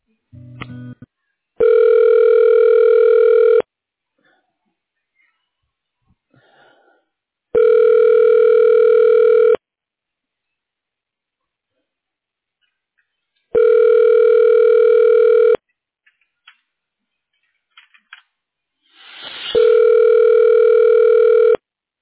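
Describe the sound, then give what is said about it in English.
Telephone ringback tone on the line while a call is transferred to voicemail: four even, buzzy electronic tones about two seconds long, spaced by several seconds of near silence with a few faint clicks. “So she is a bit busy right now, but I can transfer you over to send her a voicemail. Yes, that's okay. Thank you. All right, and I will transfer you.”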